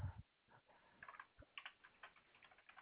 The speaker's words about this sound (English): All right, give me just a moment to get this typed up.